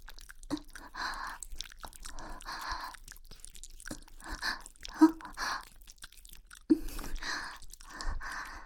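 Close, quiet chewing and biting mouth sounds, as if nibbling on a foot, come in soft repeated moist bursts with a few sharper crunchy clicks and short pauses between them.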